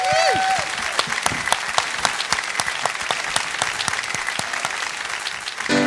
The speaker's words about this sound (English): Ladies and gentlemen, a warm welcome, George Bugatti.